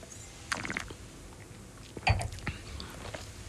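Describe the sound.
Soft mouth sounds of tasting Mencía red wine: a few faint wet sips, slurps and smacks, with a quiet breathy sound between them.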